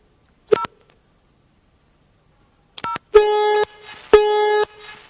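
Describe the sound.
A telephone number being dialed: two short touch-tone beeps separated by silence, then two longer, louder buzzing tones of about half a second each with a brief gap between them.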